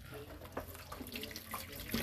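Water pours from a tap during food preparation, added to an ingredient. A steady rushing hiss runs without a break for about two seconds.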